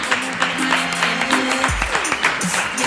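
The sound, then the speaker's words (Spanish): Applause from a crowd at a neighbourhood festival gathering, with sharp individual claps standing out irregularly over a steady low tone. “Y también un aplauso, aunque ya lo hemos aplaudido antes, a Pablo el Orduí”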